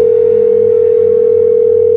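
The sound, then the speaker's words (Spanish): A telephone dial tone, heard before a number is dialed again, hums loud and unbroken at one steady pitch for about two seconds. “Pues márquele otra vez aquí.”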